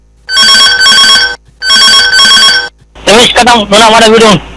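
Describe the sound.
A telephone rings with an incoming call: two long, loud, even ring bursts separated by a short gap, then a voice begins speaking.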